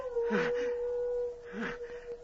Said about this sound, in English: That howl. It's wolves.